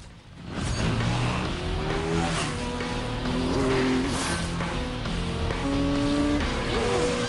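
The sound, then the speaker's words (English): Motorbike braking and skidding as the bike spins against a tree during a chase, with loud, continuous engine roar and squealing tires throughout and no voices. “Two of Trey's men ride into a fallen tree and tumble off their bikes. Ford brakes, spinning his bike against a tree, and rides back through his pursuers.”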